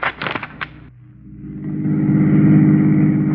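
A car engine drives along with a steady mid-pitched hum that grows louder after about a second and a half, then holds as a broad rumble with no talk over it.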